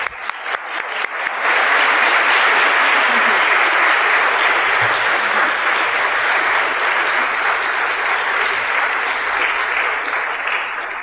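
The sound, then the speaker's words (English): Audience applause welcoming a guest speaker in Seattle. A few scattered claps quickly swell into loud, dense, steady clapping that holds evenly for about ten seconds. “So let's give Dr. Hinson a warm, great, big Seattle welcome.”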